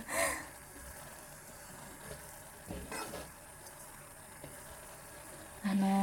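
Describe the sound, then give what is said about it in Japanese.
Liquid comes to a boil, sending up many fine bubbles. A faint, fizzy simmer of soft crackling and tiny pops continues throughout. “ふつふつと言っております。あ、取れてるのかな？この音。”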